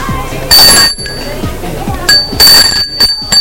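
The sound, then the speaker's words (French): A doorbell rings twice at a double door on an apartment landing, each ring a bright, loud metallic chime with a short ringing tail, separated by about a second and a half of quieter background with faint voices. “Une porte à double battant au milieu du palier. Il sonne.”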